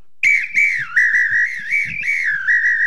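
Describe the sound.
A referee-style whistle, an apito, is blown to signal goals: one long continuous shrill tone that warbles and wavers in pitch for nearly three seconds, loud and alone.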